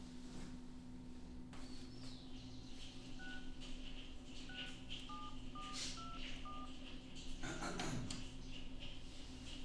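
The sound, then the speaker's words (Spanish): A telephone number is dialled on a touch-tone keypad. Several short, faint beeps of differing pitch follow one another, with a louder rustle near the end. “Mientras tanto, haré una llamada para ver si puedo conseguir esa orden”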